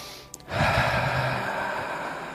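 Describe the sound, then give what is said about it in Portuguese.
A deep breath in during a guided breathing exercise: a faint click, then a long airy inhale that begins at about half a second and holds steady to the end. “Antes disso, respira fundo.”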